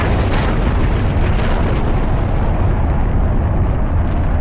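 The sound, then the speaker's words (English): A rocket blastoff roars at the end of a launch countdown, a loud, dense rumble that holds steady and unbroken from start to finish, with no voices over it. “Mission Control, we have blastoff.”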